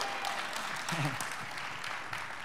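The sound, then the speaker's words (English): A church audience claps hands to welcome new members, a soft, continuous patter of applause with a brief voice audible partway through. “So let's put our hands together for Judith.”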